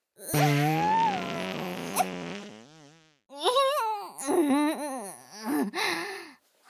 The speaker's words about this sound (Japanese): 見習い羊くんの顔に臭いおならぶちまけちゃいましたわ。